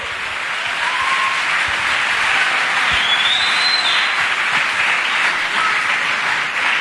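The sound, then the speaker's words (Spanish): Congregation applause during a sermon, a sustained, dense clapping that swells slightly near the middle and keeps going evenly for about seven seconds, with no speech over it. “Si va a aplaudir, hágalo bien.”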